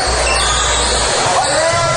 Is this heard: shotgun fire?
no